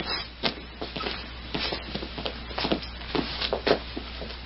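Footsteps walk to an office, a faint, irregular series of soft taps and shuffles.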